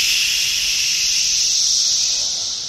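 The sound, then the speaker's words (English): Cicadas buzz in a loud, steady, hiss-like drone that runs unbroken through the whole stretch and eases only slightly at the very end. “What's so interesting about the cicada sounds is when you just hear it for the first time, you just hear white noise.”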